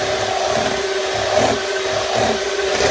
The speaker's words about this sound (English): And I'm turning my bowl and I'm also moving my mixer around.